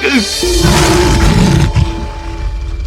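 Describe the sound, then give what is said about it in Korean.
An angry lion roars after being disturbed during its meal: a deep, rough, loud growling roar that swells and holds for about three seconds, with no voices over it. “사자는 누군가 자신의 식사를 방해하자 잔뜩 화가 났고 아론을 보자마자 으르렁대기 시작했어요.”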